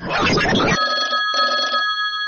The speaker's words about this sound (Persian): لطفا یه زنگ تلفن بده که بریم بازی کنیم